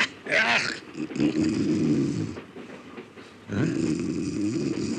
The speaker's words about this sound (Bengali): কি রে বাবা, এর মধ্যে নাক ডাকে ঘুমোতে পারছিস?